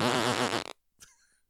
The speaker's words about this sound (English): Did somebody fart?